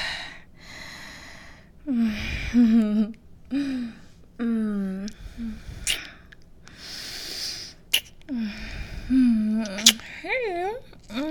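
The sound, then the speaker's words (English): Heavy, ragged panting from a person out of breath after exertion, with voiced gasps and sighing exhales repeating in uneven bursts across the whole stretch, some breaths catching into short whimpering tones. “I'm coming. I'm still out of breath. Oh, God. Okay, we made it.”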